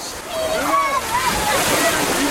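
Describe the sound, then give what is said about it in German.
A person splashes into water off a slide, giving a continuous rush of sloshing, churning water that stays loud throughout, with voices calling out over it. “Also sofort mit der Rutsche ins Nass.”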